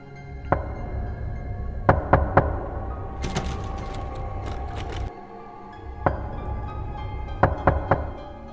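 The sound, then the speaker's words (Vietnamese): Knocking in the silence of night: a series of sharp, hollow knocks, some single and some in quick pairs or clusters, spaced unevenly over a low, dull rumble. “Tiếng gõ ấy vẫn cứ vang lên đều đều trong đêm tối tịch mịch, nghe rõ lắm.”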